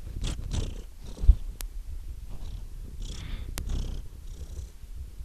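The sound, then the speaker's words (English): A female domestic cat purrs during a tummy rub, a low, continuous rumbling purr. Faint handling rustles and a couple of sharp clicks sit on top of it. “the Pranfunkel's cat, who's demanding a tummy rub, and she's purring”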